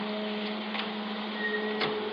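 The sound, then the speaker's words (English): Photo print dryer running in a darkroom, a steady, even mechanical whir with a faint tonal hum and a couple of soft clicks, unchanging throughout. “Kill that dryer, will you?”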